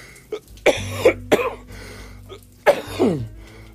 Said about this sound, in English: sorry, guys, that's that cough I was warning you about.